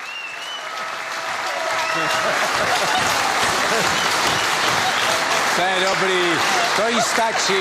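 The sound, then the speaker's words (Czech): Audience applause in a studio builds over the first two seconds into loud, dense, sustained clapping, with voices talking over it in the later part. “jste to musela slyšet, že chlapci vám tleskali a ty vás vidějí zezadu”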